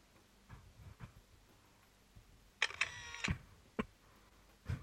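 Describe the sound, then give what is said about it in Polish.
Faint mechanical clicks and a brief whir from the camera of a Read Easy Evolve reading device photographing a leaflet, a few sharp, separate clicks over near silence. “I teraz spróbuję wykonać zdjęcie. Uwaga. Robię zdjęcie.”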